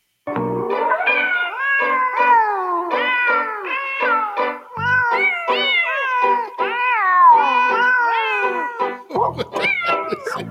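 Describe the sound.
Cats meow through a Christmas song, their pitched meows rising and falling as a continuous melody for about ten seconds without talk.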